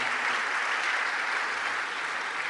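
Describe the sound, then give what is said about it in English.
An audience in a church applauds with dense, continuous clapping that stays even throughout and eases slightly near the end. “Just give him a round of applause.”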